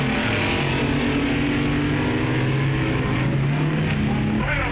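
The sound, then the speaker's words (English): Drag racing cars, including a Dragmaster, roar down the strip. A loud, continuous engine drone with strong harmonics holds a steady pitch for the whole clip, with no break or pause. “The Dragmaster with a lower ET, but Tets getting off the line better. Well, that's drag racing.”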